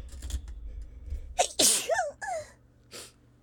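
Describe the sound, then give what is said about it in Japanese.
A sharp, loud sneeze bursts out, framed by a few shorter breathy sounds before and after it, with no talking. “失礼しましたくしゃみしちゃった”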